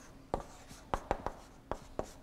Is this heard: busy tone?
no